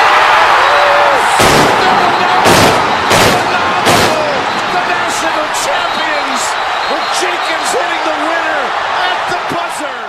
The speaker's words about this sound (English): Remember when Chris Jenkins hits that shot, the guy in the building launched the fireworks. You heard those big explosions.